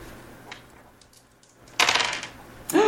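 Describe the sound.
Dice clatter across a table during a Ryuutama tabletop role-playing game, in two quick, bright rattling bursts that follow a quiet stretch.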